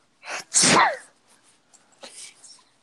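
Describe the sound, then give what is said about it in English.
A person fakes a sneeze: a short breathy intake followed by one loud, sharp, hissing burst, then faint breathy noise. “I'm just gonna be honest, it wasn't a real sneeze.”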